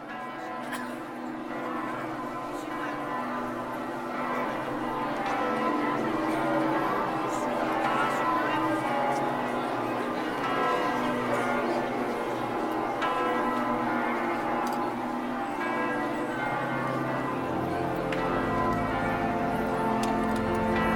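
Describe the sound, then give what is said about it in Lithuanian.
Church bells ringing at Fatima, a dense, continuous peal of overlapping tones that rings steadily for about twenty seconds. “Kviečiame visus pasiklausyti giesmės skambančios Fatimoje ir autentiško varpų skambėjimo iš Fatimos.”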